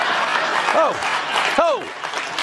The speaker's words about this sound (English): Now, as they pull out, look at the pom-poms. There's a band. People are cheering.